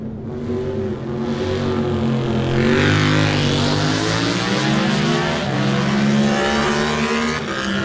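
An Aprilia RS660 motorcycle engine roars loudly and continuously at a race, its pitch climbing as it revs, dipping briefly, then climbing again, with no talk.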